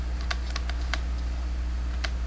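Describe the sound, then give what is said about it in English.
Arrow keys being pressed on a computer keyboard: a few sharp, irregular key clicks over a steady low hum, with no talking. “It's not saying anything when I'm hitting arrow keys.”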